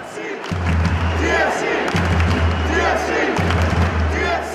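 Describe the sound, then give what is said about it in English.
Stadium crowd in the stands at a Canada vs Honduras Nations League soccer game, loud and continuous chanting and cheering with repeating low, droning pulses running beneath the roar. “That was the inaugural voice note in the stands at the Canada versus Honduras Nations League game”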